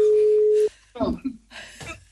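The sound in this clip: A telephone tone on an outgoing call to a radio contest winner sounds as one steady mid-pitched beep that cuts off abruptly, followed by people talking.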